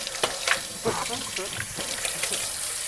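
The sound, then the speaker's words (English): A tap runs steadily while raw egg is washed off hands at a kitchen sink during a cooking session, giving a continuous hissing water flow broken by a few soft splashes. “So this is where I definitely will wash up, because you don't want to get raw egg everywhere for a number of reasons.”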